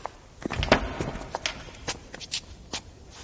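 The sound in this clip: Footsteps walking ahead: a series of soft, uneven steps with some light scuffing between them, at a moderate walking pace.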